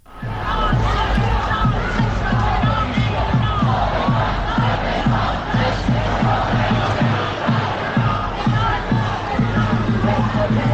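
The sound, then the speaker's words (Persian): Large Iranian protest crowd chanting slogans about Kurdistan and Zahedan in unison, a loud, steady rhythmic chant that repeats throughout over dense crowd noise. “همونطور که میشنوین مردم دارن شعار میدن کردستان زاهدان، چشم و چراغ ایران”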